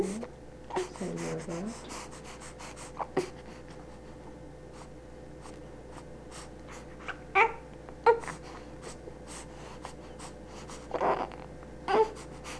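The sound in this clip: Faint grunting and straining sounds from a baby pushing with his mouth closed after a bath, coming in several short, scattered bursts separated by quiet stretches.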